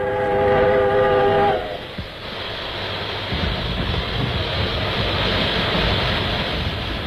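A steam locomotive releasing steam: a broad, steady hiss that holds for several seconds, following a brief tonal sound at the start.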